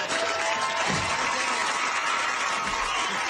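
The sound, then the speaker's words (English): Dense cheering and applause from the studio audience of the sitcom Step by Step fills the whole clip as a steady, loud wash of clapping and crowd noise with no pauses. “Fake audience goes wild.”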